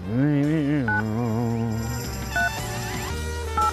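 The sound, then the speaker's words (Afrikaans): Telephone keypad dialing tones as number keys are pressed: three short, clear electronic beeps spaced about a second or more apart, with other sound underneath. “kom, ek druk het gauw hier die nommerkies.”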